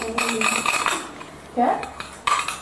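A spoon stirs tea in a cup, giving a few bright ceramic clinks and scraping rattles of metal against the cup, with quieter shuffling in between.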